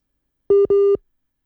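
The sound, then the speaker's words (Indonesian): A telephone busy tone plays while a radio call-in listener is being reconnected: two steady, mid-pitched electronic beeps, the second slightly longer than the first, followed by silence. “Lagi menghubungkan ulang ya pendengarnya. Mohon maaf ditunggu.”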